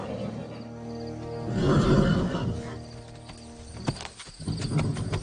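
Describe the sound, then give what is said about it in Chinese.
A young wild stallion, exhausted after fighting within a horse herd, neighs in a loud, rough whinny midway through a rustling background, followed by a few dull thuds and scuffing sounds. “年轻的公马精疲力尽，最终甘拜下风。”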